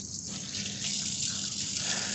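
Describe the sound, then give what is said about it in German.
Tap water runs steadily into a sink while a duck breast is washed for cooking. It makes a constant, even hiss and splash with no voices. “Jetzt gehen wir zur Ente. Ente waschen erstmal.”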